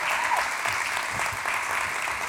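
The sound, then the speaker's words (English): Audience applause as a church audience welcomes a couple on stage: dense, steady hand clapping that stays loud and even for the whole stretch, with no breaks. “I want you to give a big hand clap to our good friends”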